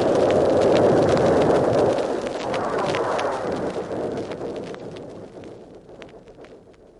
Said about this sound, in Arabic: هو سمع انفجار كأنه بركان، وارتج المكان وامتلأ بالدخان